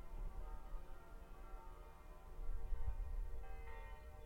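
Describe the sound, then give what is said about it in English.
Church bells ring across a valley at Lauterbrunnen, Switzerland, heard as faint, steady sustained tones that linger throughout, slightly swelling toward the end. “Let's point this microphone, see if you guys can hear any bells.”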